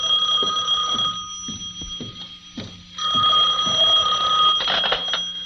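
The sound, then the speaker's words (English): An office telephone rings with a bright, steady, bell-like electronic tone in two long bursts separated by a short pause. “My substitute secretary hadn't come in yet, but my phone was ringing.”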